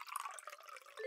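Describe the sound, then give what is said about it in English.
Gin poured haphazardly into a glass tumbler, a faint liquid trickle and splash of drips running unevenly for about a second before a soft low knock at the end. “that's the sound of gin being poured haphazardly into the tumbler of someone who, by the sound of it, has a drinking problem.”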